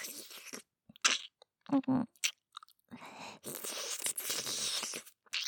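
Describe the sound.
Crunchy chewing and biting of food during a timed eating challenge, the food having been made soggy; irregular bursts of crunching and mouth noises with short pauses between, fairly faint.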